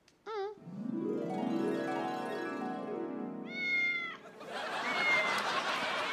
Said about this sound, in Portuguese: quem é o gatinho mais lindo da mamã? Olá, pequenino, como é que estás?